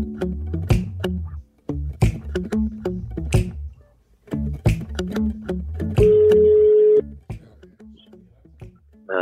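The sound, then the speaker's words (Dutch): A telephone call is placed, and one steady ringing tone lasting about a second stands out. Busier rhythmic clicking sounds come before it, and quieter ticks follow. “Vind je het goed als we Theo even bellen?”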